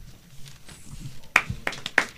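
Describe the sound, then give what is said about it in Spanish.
A single person clapping at a spoken-word poetry event: after a quiet start come a few sharp, irregularly spaced claps, crisp and isolated. “Un aplauso solito.”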